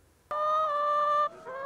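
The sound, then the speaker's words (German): A single drawn-out call from a laying hen on a free-range egg farm with 450 hens: a steady nasal tone lasting about a second, which drops abruptly into a quieter, lower note. “450 Legehennen leben auf dem Klausenhof in Wiefelstede. Es werden vor allem ihre Eier vermarktet.”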